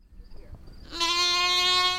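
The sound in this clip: A Black Mountain Welsh sheep lets out one long, loud, sustained bleat with a steady, buzzing, nasal tone. It comes after about a second of quiet low background noise.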